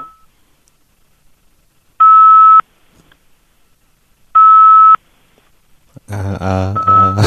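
Touch-tone DTMF dialing beeps from a phone: two loud, steady dual-pitch tones, each about half a second long and separated by silence, followed at the end by a louder burst of a different rich, tonal sound.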